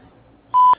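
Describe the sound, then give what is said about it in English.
A voicemail recording tone, a single short electronic beep at a steady mid pitch, sounds clean and alone after near silence. “Record your message after the tone.”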